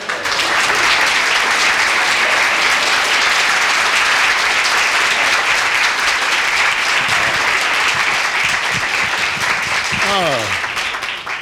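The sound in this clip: Warm audience applause welcoming a comedian onto the Hungry Eye stage, dense steady clapping that holds at full strength for about ten seconds before tapering, with a voice starting near the end.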